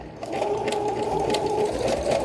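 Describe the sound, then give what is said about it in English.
A sewing machine runs at a steady, fairly fast pace, its motor humming under a rapid, even needle clatter that holds a constant level throughout. “Probably has something to do with thread tension. And is it sewing? Yeah, it's sewing now. Okay, see, it wants to go faster.”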